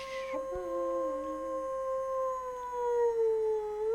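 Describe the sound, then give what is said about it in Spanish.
Wolves howling: long, sustained howls from several animals overlap, holding a steady, fairly high pitch with slight wavers and dips throughout. “Aullidos. Aullidos de lobos.”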